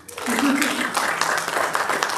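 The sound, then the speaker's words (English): Audience applause for a girl turning 16: clapping swells in abruptly after a brief quiet moment, then holds as a steady, fairly loud patter, with a voice briefly heard over it. “So my daughter turned 16 yesterday. Give her a round of applause.”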